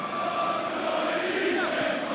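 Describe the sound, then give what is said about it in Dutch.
Football crowd chanting in a stadium at a Willem II match in Dordrecht, a dense, steady roar of many voices holding sustained sung tones without break. “Het publiek scandeert, ze worden hier geen kampioen.”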